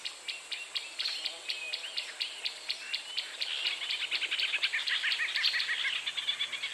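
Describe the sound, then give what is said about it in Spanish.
Warm African afternoon ambience of birds and insects: quick, repeated high chirps in a steady rhythm that grow denser and busier in the second half, with no voices. “Vamos a comenzar nuestra aventura en una cálida tarde africana. Este lugar tiene muchos sonidos fascinantes. Escucha.”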